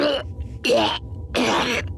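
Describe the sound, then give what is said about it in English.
A man's hacking coughs: three loud, rough, raspy bursts in quick succession, each breaking off sharply before the next. “He said between hacking coughs.”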